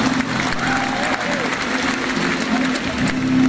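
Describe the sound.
Audience applause at the Rizal Grand Feast 2016 gathering, a steady wash of clapping that lasts the whole clip with voices over it.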